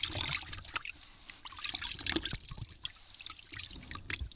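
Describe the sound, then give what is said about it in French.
Water splashes and trickles as someone scoops it up in cupped hands from a reservoir to wash mud off their face; steady, busy dribbling and splattering continues throughout, with no voices. “Il prend de l'eau dans ses mains et se lave le visage pour enlever la boue.”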